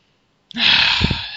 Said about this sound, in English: Deep breath.